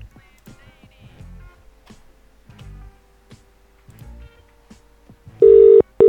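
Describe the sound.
A telephone being redialed: faint beeps and clicks give way to two loud, steady electronic tones near the end, cut by a brief gap.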